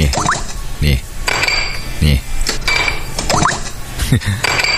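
Glasses clink and knock repeatedly as drinks are poured and topped up with soda, sharp bright chinks recurring about once a second over steady background noise.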